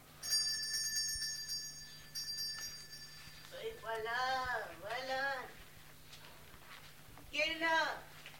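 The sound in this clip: A doorbell rings in stuttering electric bursts for about three seconds, then voices talk over a low hum.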